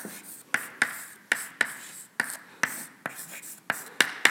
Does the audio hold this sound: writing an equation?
yes